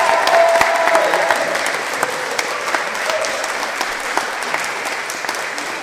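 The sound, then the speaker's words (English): An audience at a live school event applauds as guests come up on stage. Many hands clap continuously in a thick, even patter that slowly thins toward the end. “So give them a round of applause as they come up.”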